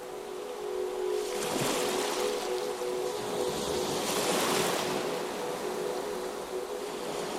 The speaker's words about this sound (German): Halte inne und richte deinen Blick auf jenen Punkt nahe der Wasserkante, wo die sanften Wellen an den Strand treffen.